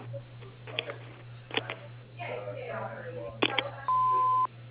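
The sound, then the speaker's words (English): A voicemail beep sounds as a single steady, mid-pitched electronic tone about half a second long over a thin phone line. It comes after a stretch of speaking voice and scattered clicks. “leave a message after the tone”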